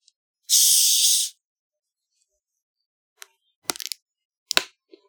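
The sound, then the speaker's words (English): A can of cold Dr. Pepper is cracked open with a loud fizzing hiss lasting about a second, followed by a few small clicks and taps. “So let's get ready to listen to Chapter 1 and crack open a nice cold Dr. Pepper.”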